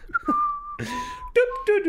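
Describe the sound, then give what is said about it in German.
A person whistles: a steady, sustained mid-pitched tone, then a short burst of breathy noise and a few more whistled tones that step lower in pitch, fairly loud and clear. “Herr Heimlich hat auch immer gepfiffen.”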